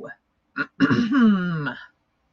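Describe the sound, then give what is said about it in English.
Throat clearing: two short, rough bursts followed by a longer voiced rasp that slides downward in pitch before stopping. “I'm going to clear my throat, get everything started here.”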